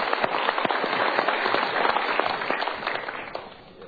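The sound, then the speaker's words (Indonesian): Audience applause for two people invited up at a motivational seminar: dense, continuous clapping from many hands, loud and steady, thinning a little toward the end. “Kita berikan tepuk tangan untuk dua orang ini.”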